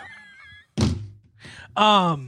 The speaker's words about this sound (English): That was my phone slamming down.